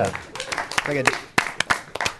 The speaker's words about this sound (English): pity claps. I know pity claps. Did you want better claps for your genius joke?